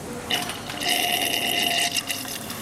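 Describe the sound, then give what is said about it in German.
Warm mineral water from a Bad Kissingen spring pours from a tap whose lower pipe, filled with warm water, heats it like a flow heater. The pour is a steady, hissing splash lasting about two seconds, with no voices. “Oh, hier kommt es dann gleich warm aus der Leitung, ja?”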